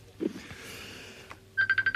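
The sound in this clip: A telephone ringing in a radio studio: a quick burst of short, high electronic beeps near the end, following a second of quiet background sounds.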